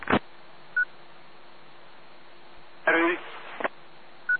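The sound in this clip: Telephone dialing on a radio phone line: short, clipped electronic tones, one near the start and one at the end, separated by a brief burst of other sound.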